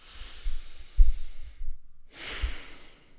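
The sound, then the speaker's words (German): Deep breathing in and out during a calming breathing exercise: two long, airy breaths separated by a short silent pause, with soft low puffs of air underneath. “Lässt einfach die Luft raus und das ganze Nervensystem beruhigt sich ein bisschen, wenn wir tief ein- und ausatmen.”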